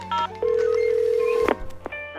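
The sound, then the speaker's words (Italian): A telephone number is dialled: a few short electronic keypad tones are followed by one long, steady mid-pitched tone, then a few more brief beeps and tones. “Io quasi quasi chiamo Slow Food, magari mi consigliano una trattoria, qualcosa, aspetta.”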